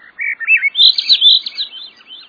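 Flute-like song of a Swainson's thrush in the cool evening of a northern forest: clear whistled phrases follow one another quickly, climbing higher in pitch as the song spirals upward, heard alone without voices.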